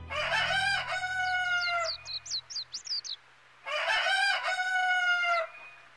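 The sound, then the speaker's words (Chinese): A rooster crows at dawn, two long, loud, harmonic cock-a-doodle-doos separated by a pause filled with a quick run of high, thin bird chirps, over a faint low hum. “我一夜辗转难眠，终于听到鸡啼了，天亮了。”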